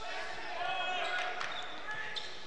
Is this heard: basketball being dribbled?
yes